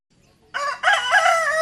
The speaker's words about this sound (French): Les coqs chantent les jours pareils, tous et debout dans les villages. Le coq chante.